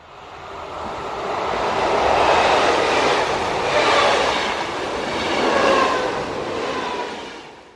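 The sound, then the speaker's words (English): A train passing: a loud, steady rumbling roar with rattling and a hiss of wheels on rails. It swells and eases in a few broad waves, then fades at the end, with no voices. “Train.”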